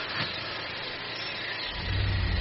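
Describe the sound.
A hearse engine starting at dawn: a steady hiss runs first, then a deep, low engine rumble kicks in near the end and holds strongly.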